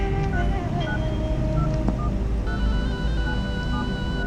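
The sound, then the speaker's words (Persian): A phone number is dialed, producing a quick series of short keypad beeps over a steady, noisy background hum. “اینم که خاموشه. الان چی کار کنم؟ بهتر شماره میلادو بگیرم.”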